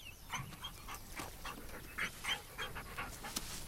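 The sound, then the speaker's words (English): A hound dog sniffing and panting in a swampy field. Quick, breathy huffs and snuffles repeat unevenly, faint and with no voices. “the dog sniffs at the bag on his head.”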